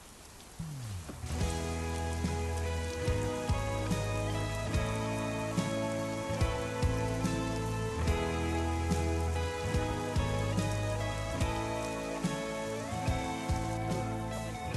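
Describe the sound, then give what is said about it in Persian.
Rain falling in a steady, even hiss throughout, with soft tonal music running over it. “آه داره بارون میاد.”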